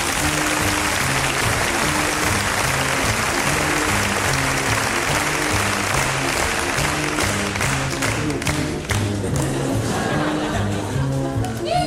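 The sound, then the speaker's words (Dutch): A crowd gives warm applause to a pianist at a Dutch cabaret show, a dense, continuous clatter of clapping with a low tune carrying on underneath. It grows crisper and more distinct toward the end. “Beloon hem daarom nu meteen met een hartelijk applaus.”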